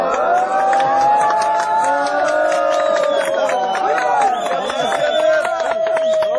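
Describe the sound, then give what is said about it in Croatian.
A crowd of refugees cheers and shouts ironically at Hungarian soldiers reinforcing a border fence with barbed wire near the Horgoš crossing. Many overlapping raised voices and whoops form a steady, dense roar, with sharp percussive hits scattered through it. “Aplauzom, ironičnim povicima bravo, grupa izbjeglica je pozdravila mađarske vojnike”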